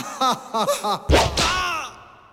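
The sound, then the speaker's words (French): A whip-lash sound effect in a comedic sketch: a few short vocal sounds, then one sharp, loud crack that decays quickly into a fading rush. “Si tu veux un autre coup de fouet, tape 1.”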